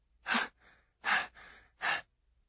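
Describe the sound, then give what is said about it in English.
A woman's breath let out in little puffs while hiding quietly in a classroom: three sharp, breathy bursts with fainter breaths in between, soft and alone with no talk. “let out her breath in little puffs like,”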